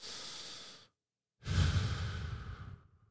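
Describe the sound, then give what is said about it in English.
One deep breath for calming fear: a short, hissy inhale through the nose, a brief pause, then a longer, fuller and breathier exhale through the mouth, soft and alone. “I want one big breath in through the nose, out through the mouth.”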